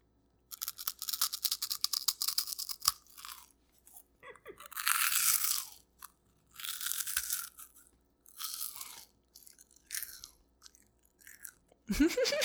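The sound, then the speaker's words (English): Cheese puffs being crunched and chewed, loud crisp bursts of crunching broken by short pauses, several chewing bouts in a row with no talking. “And now, for some cheese puff ASMR.”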